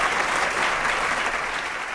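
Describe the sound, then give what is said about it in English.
An audience applauding during a quiz game, giving a round of applause for an active-duty Air Force officer: loud, dense, even clapping that holds steady throughout the two seconds. “Round of applause for the Major.”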